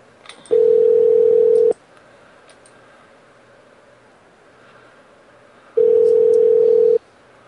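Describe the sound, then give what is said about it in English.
Two long, steady telephone beeps on a call to a hotel line. Each lasts just over a second and is separated by several seconds of quiet line hiss, with no talking. “I muted that. Was that, y'all probably heard that beepings, didn't you? That beepings?”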